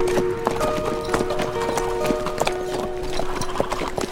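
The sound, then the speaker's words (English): Hooves clip-clop as three horses are ridden into an Old West town, with a steady rhythm of many sharp hoofbeats over a continuous background. “It was mid-afternoon when the three men rode back into Whiskey Flats”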